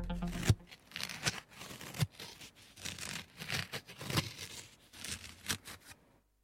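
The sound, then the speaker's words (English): Scratchy rasping of a playing card rubbed against a short beard, amplified close up. Many irregular dry scrapes come in uneven strokes over about six seconds, with no talk. “So this is the sound of a playing card being rubbed against my pathetic beard.”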